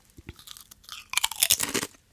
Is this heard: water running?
no